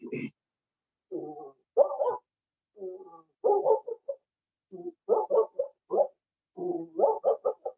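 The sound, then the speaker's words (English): A human voice imitates a dog barking from three blocks away, with many short, muffled, low barks in irregular clusters separated by brief silences. “my impersonation of a dog barking from 3 blocks away”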